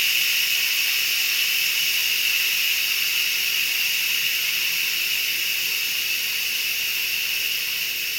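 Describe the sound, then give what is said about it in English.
Steam hissing out of a pressure cooker during a quick release on a pot of carrots, a steady, even, high hiss that holds unbroken from start to end. “We're going to quick pressure release these carrots because it's just carrots. And notice if I kind of just nudge it a little bit, see, it's going to kind of you can hear it funny. Coming out.”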